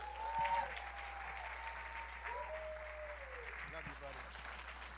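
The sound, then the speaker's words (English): Audience applause welcoming a preacher: steady, sustained clapping throughout, with a voice speaking over it. “Now give Jesus Christ the praise who alone is worthy. Give the Lord a mighty hand of praise.”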